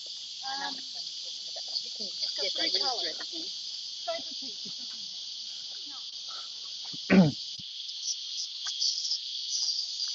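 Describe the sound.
Tsukutsuku-boshi cicada singing in steady, high-pitched, unbroken song during a walk, with a voice talking over it for much of the time.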